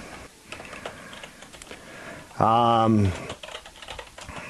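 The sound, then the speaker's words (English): Quick typing on a computer keyboard as a note is written, a steady patter of light plastic clicks, broken briefly by a short voiced sound partway through. “Let me do one quick thing. I'm writing a quick note to my TV producers.”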